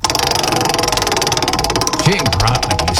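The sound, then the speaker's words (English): A game show prize wheel spins with a rapid, steady run of loud clicking ticks. Voices join in near the end. “We're going to give you the wheel, and you have to spin it whenever you're ready.”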